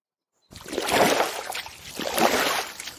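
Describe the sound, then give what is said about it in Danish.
Oars swishing through water as a family rows a boat on a lake: two broad, rushing strokes with splashing water, at a steady rhythm. “De skiftes til at ro. Faren han starter, og lidt efter så tager Freja og Malte over.”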